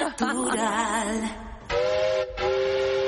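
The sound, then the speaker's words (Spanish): A train whistle sound effect with a steam-whistle character: a wavering, hissy whistle followed by two steady, bright high blasts separated by a short break. “Hoy nos daba tiempo a poner el tren. Si quieres, ponlo. Sí, hombre, que hace mucho que no suena.”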